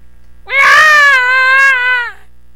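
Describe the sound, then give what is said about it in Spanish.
A child cries and screams louder while refusing to eat: one long, loud, high-pitched wail that holds steady for over a second and then breaks off. “El niño llora y grita más fuerte.”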